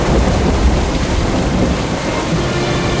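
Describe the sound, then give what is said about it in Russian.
Rain falls outside as a loud, continuous dense hiss with a low rumble beneath, steady throughout without letting up. “На улице дождь.”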